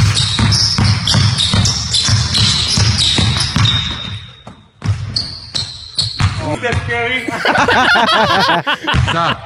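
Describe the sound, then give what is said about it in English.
A basketball dribbled rapidly through the legs, many quick rhythmic bounces, followed by people talking and chuckling. “he dribbled through his legs about 100 times and then went with a reverse layup”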